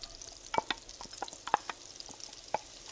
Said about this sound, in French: On met de l'huile d'olive et une noix de beurre. Donc on attend que le beurre mousse. Normalement, voilà, on entend le bruit.